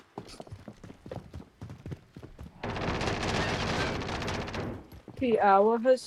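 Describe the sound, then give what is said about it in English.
Video game gunfire as a player is shot from behind: a dense, continuous burst of rapid shots lasting a couple of seconds, with people talking before and after. “Ooh, I'm getting shot from behind.”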